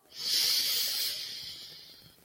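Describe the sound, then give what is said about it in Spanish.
One long, deep breath during a guided breathing exercise: a soft, airy hiss that swells quickly, holds, then slowly fades, heard alone without talk. “expande tu estómago, inhalamos. Exhala. Una vez más, inhala.”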